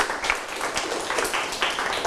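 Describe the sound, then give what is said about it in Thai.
Classroom applause from students: dense, steady clapping with many overlapping claps that stays even and moderately loud for the whole stretch, with no talking over it. “ปรบมือครับ”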